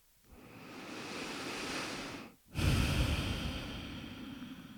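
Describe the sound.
Slow breathing during a guided meditation: one long, loud breathy inhale, a brief pause, then a longer, fuller exhale that fades gradually. No one speaks.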